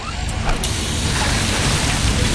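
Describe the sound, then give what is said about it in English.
A hydraulic hose bursts on a machine, opening with an abrupt burst of noise that turns into a loud, continuous rushing hiss, holding steady and unbroken to the end. “Oh, busted hose. This will cost me time and money, and take forever to get fixed.”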